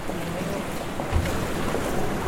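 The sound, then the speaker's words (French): Rough, agitated sea off Naples with strong wind. A dense, steady roar of surf and gusting wind noise runs throughout without distinct breaks. “Voilà la mer. Et quelle mer ! Très agitée,”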